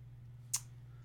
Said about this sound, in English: All right, let's click, click, click.